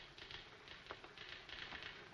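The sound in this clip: Typewriter keys clack faintly but steadily as a bad review is typed in the film Citizen Kane, a quick, even run of many small strikes with no voices.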